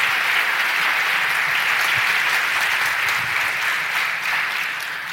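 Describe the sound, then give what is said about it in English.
A live studio audience at an Educators Day event applauds with steady, dense clapping that stays loud and even throughout. “Let's, again, live studio audience, let's give them a big hand.”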